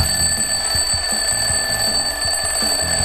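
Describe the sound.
An alarm clock rings nonstop with shrill, steady high electronic tones over a fast, regular rattling pulse beneath, loud and unbroken throughout.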